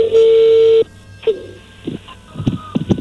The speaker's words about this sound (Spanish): Ahí entró la llamada